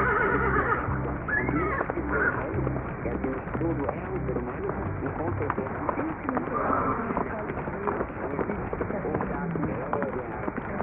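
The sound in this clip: A horse whinnies over a steady, muffled rumble of galloping hoofbeats, with the high neighing calls standing out above the dense, continuous drumming throughout.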